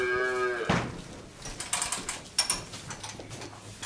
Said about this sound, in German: es ist jetzt 6 Uhr am Abend und mein Vater ist im Stall, um sich dort um die Tiere zu kümmern.